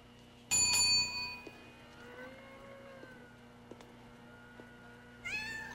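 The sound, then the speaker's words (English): A caged kitten at a city pound meows, first with a loud, high, drawn-out cry and then with a shorter call near the end. Faint quiet sounds fill the gap between them. “They look at a caged kitten.”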